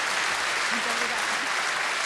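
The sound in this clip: Audience applause fills a fado concert in Leverkusen: dense, steady clapping that holds at an even level for about two seconds without a break.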